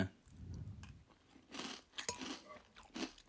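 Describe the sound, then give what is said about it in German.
Someone taking the first bite of food, followed by faint, crisp crunching and chewing in a few uneven bursts. “ich nehme jetzt gerade ich nehme jetzt gerade den ersten Biss”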